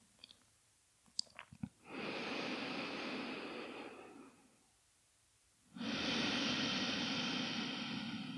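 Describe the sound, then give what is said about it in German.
Long, airy nasal breaths in an alternate-nostril breathing exercise, with the exhale through the right nostril. Two soft, steady breaths of about two seconds each are separated by a pause, with a few faint clicks beforehand. “Und dann atme aus durch das rechte Nasenloch, durch den Sonnenkanal. Die letzte Runde abschließen mit der Ausatmung durchs rechte Nasenloch.”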